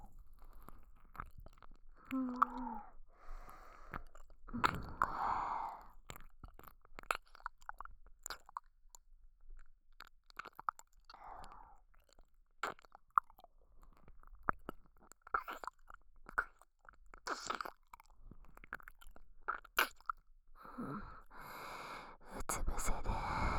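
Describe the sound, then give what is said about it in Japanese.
Wet mouth sounds of sucking on an ear for ASMR: many soft, quiet smacks and slurps at irregular intervals, with occasional breaths. “今から君の耳をいっぱいしゃぶってふにゃふにゃにしてあげる。まずはこっちの耳から。”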